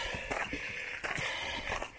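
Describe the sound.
Footsteps on a hiking trail along a flat ridge near the summit of Mount Willard, a steady series of crunching steps at an even walking pace, fairly clear over a constant background hiss.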